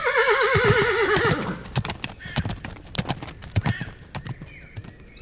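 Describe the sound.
A horse whinnies in a loud wavering call, then its hooves clip-clop in a quick uneven run of many strikes as a saddled horse carries its rider off.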